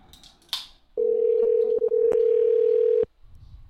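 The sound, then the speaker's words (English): A telephone ringing tone during a call: a single steady mid-pitched tone holding for about two seconds, with one brief dip partway through, fairly faint overall. “Just ringing and ringing.”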